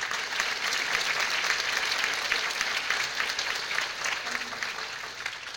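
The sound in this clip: A music performance audience applauds to welcome the performers' parents, with brisk, even clapping from many hands sustained for several seconds before easing slightly at the end.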